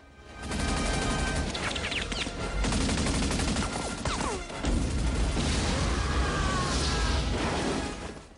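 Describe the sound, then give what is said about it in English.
Sustained gunfire from a gunner opening fire in a combat scene of a drama, a loud, dense, continuous rattle of shots that runs almost the whole clip with no clear gaps between rounds. “A gunner opens fire.”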